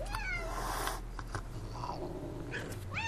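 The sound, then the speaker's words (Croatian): Cats yowl at around four in the morning in several drawn-out, wavering cries that bend up and down in pitch. The cries are faint over a low steady background hum, with a final sharper wail. “Oko 4 ujutro tijekom madrugade podivljaju mačke.”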